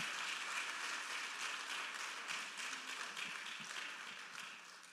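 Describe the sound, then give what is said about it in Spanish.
A church audience applauding in praise during a service: a dense, continuous wash of clapping, fairly soft overall and easing slightly toward the end. “Dale un aplauso fuerte al Señor Jesucristo.”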